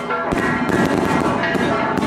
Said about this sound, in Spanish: El olor a pólvora anuncia la llegada de los invitados. Entre gritos, cohetes, aplausos y risas, una vez más Melchor, Gaspar y Baltasar salen a bendecir las aguas de Cajititlán.